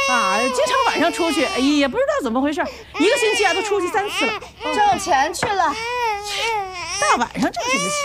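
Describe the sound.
An infant cries in loud, wailing bursts, its pitch sweeping up and down between short gasping pauses.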